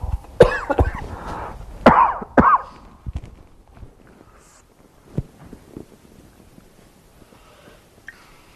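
A few sharp, throaty coughs in a quick cluster, loud and abrupt against a quiet background, followed by near-silence with only faint scattered knocks.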